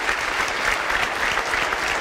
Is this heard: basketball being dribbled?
no